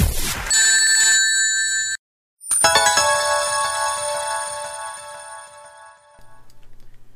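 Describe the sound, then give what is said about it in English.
A video game jingle for earning a platinum medal: bright, bell-like electronic chimes, then a short silence and a sustained shimmering chord that slowly fades, ending in a low, pulsing tail. “sound is the sound that you have acquired a platinum medal.”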